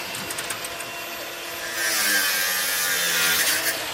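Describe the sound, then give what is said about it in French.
An angle grinder cutting a metal key box off a public stair railing in the Panier district of Marseille gives a harsh, continuous whine and hiss that grows louder and brighter midway and holds steady. “Dans le quartier du Panier à Marseille, trois hommes de la régie municipale sont en train de scier une boîte à clés à l'aide d'une disqueuse. Elle était accrochée sur une rambarde d'escalier en mobilier urbain public.”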